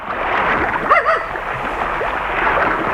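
Water sloshes and splashes around a small boat on the Yenisei river, a steady rushing wash broken by a brief burst of louder splashing near the middle.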